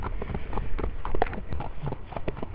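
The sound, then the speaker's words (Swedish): Horse hooves walking at a slow pace along a gravel road covered in ice and a thin layer of hard, refrozen snow. The hoof strikes are irregular, crunchy and moderately loud, with no talking. “Vi har ungefär 450 meter kvar och vi skrittar längs en grusväg som vi brukar rida längs.”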